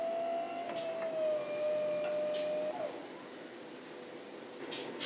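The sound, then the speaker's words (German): An automated glazing machine pumps glaze into a clamped, rotating toilet bowl, giving off a steady mechanical whine at a fairly constant pitch, with faint clicks and a softer hum toward the end. “Und dann pumpt die Maschine erstmal innen die Glasur rein.”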